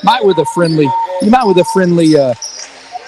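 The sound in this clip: A basketball bounces off the backboard after a missed tip-in attempt during a game between Dumas and Mountain Home, giving a few sharp thuds under loud, excited commentary.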